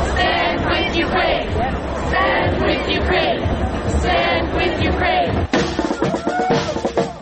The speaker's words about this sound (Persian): هزاران نفر از ساکنین تورنتو و عمدتاً اوکراینی کانادایی ها در اعتراض به حمله نظامی روسیه و اعلام همبستگی با اوکراین دست به تجمع اعتراضی زدند.